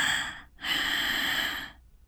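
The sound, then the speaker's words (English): Quick, hissy breaths drawn with throat friction through a slightly open mouth, paced too fast. A few rapid, breathy rushes come in close succession, then it goes quiet, with no talking. “practice the throat friction yourself as I go on with the explanations. Your mouth is slightly open. The rhythm of the breath is roughly your normal one. This, for example, would be too fast.”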